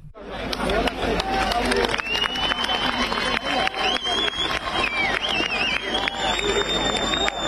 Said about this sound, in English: That's the sound of activist groups gathering in Paris to mark 10 years since the killings of three Kurdish women.